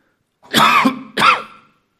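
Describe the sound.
Throat clearing and coughing from someone with an irritated throat during a Bible talk. A longer rasping burst is followed by a shorter harsh one, both loud, with no speech around them.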